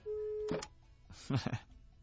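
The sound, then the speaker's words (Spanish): A Movistar voicemail line answers with a single steady, mid-pitched phone tone lasting about half a second, then a recorded voice prompt speaks in short bursts. “¡Qué bárbaros! Buzón Movistar.”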